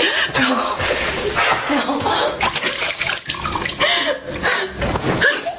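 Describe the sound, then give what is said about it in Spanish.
Water splashes as someone washes their face at a bathroom sink, with loud, uneven bursts of splashing coming in irregular rhythm. “Va al baño y se lava la cara.”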